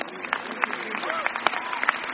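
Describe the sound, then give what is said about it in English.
A church audience claps hands for the Lord, with scattered, irregular sharp claps over a murmur of voices throughout. “Stand up on your feet, everybody. Stand up on your feet. You are shaking your head. Give the Lord a clap of hand.”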